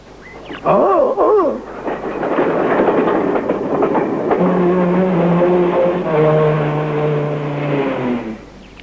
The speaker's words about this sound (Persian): پس موتور کجاست؟ همین الان با سرعت زیاد از اینجا دور شد.